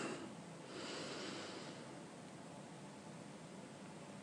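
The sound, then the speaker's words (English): A slow inhale through the nose, heard as a soft, steady breathy hiss that swells slightly in the first half and then eases off. It is faint and continuous, with no voices. “Inhaling through your nose very slowly.”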